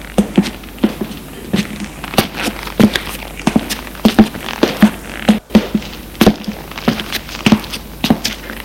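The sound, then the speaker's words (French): Footsteps of a woman walking up to her room: a long, steady series of sharp, evenly spaced steps with no voices. “Sa promenade, elle décide de monter à sa chambre pour se reposer un peu.”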